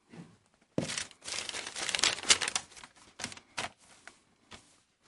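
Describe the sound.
Paper notes crinkle and rustle as they are handled during a sermon on 1 Corinthians, in irregular crackling bursts that are dense and loud at first, then thin out into a few short, separate rustles. No one speaks.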